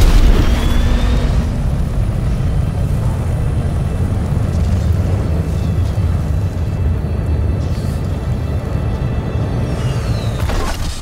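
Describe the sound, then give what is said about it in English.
Boot thrusters of an Iron Man–style suit fire at 1% thrust capacity, giving a loud, steady, low rumbling roar that holds at an even level throughout with no voices. “Just going to start off with 1% thrust capacity. In 3, 2, 1.”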